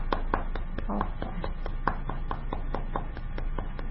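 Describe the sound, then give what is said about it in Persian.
Children clapping to applaud themselves after a lesson: many sharp hand claps in an uneven rhythm, fairly faint, with no talking. “بچه ها خودتون تشویق کنید، خیلی خوب یاد گرفتید.”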